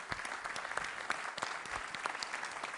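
Applause from an audience at a Windows Phone presentation, a dense, crackling wash of claps that stays fairly faint and even throughout.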